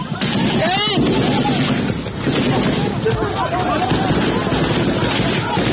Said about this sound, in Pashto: په هغې ویډیو کې چې ایراني رسنیو خپره کړې سرتیری ښکاري چې پروت یې کړی او د دوی پر لورې ډزې روانې دي.